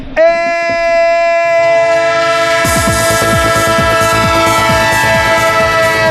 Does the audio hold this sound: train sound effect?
yes